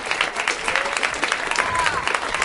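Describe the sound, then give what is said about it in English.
A studio audience greets arriving guests with thick, continuous applause mixed with crowd noise, loud and steady throughout. “Please welcome Steve Agee and Sarah Silverman.”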